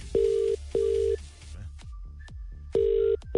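Telephone ringing tone on an outgoing call, a steady low tone in repeating double pulses: two bursts, a pause with faint clicks, then the pair starts again.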